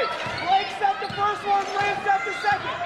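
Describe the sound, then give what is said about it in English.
A basketball dribbled on a hardwood court during a women's game, bouncing in a steady rhythm of a few dull thuds with voices in the background. “Yeah, just a little stutter step before she started to dribble.”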